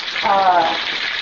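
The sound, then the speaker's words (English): Bacon frying in a pan gives a steady, bright sizzling hiss that holds evenly for a little over a second. “Are you frying bacon?”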